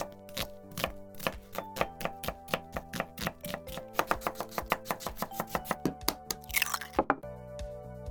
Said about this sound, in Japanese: よし、まずは腹ごしらえや。たこ焼きとお好み焼き作るわ。